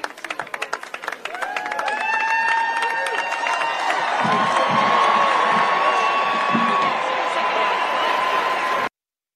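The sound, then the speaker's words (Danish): Crowd noise at an Air Force Academy graduation ceremony in Colorado Springs: loud, sustained cheering and clapping with voices and tonal calls, holding steady before stopping abruptly. “Lyden stammer fra en video på BBC fra Colorado Springs, hvor afgangsceremonien blev holdt.”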